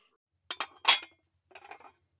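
Butter plates clinking as they are set out, three brief clusters of light, bright clinks with short pauses between them, fairly faint against silence.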